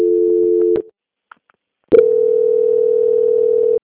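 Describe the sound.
A telephone call-transfer tone: a loud, steady, mid-pitched tone holds for nearly a second and cuts off. After a quiet gap with a couple of faint blips, the same tone resumes for almost two seconds.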